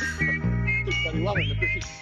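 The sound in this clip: A whistled tune from a 1968 instrumental record carries a bright, swooping melody over sustained low accompaniment, staying loud and steady throughout.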